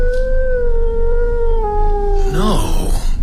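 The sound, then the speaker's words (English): A dog howling on the moor: a loud, long, sustained tonal wail that drifts slowly lower, then breaks into a brief wavering warble near the end, over a low steady rumble. “Did you hear something? Sounded like a howl. One of those damned sheepdogs lost on the moor, probably.”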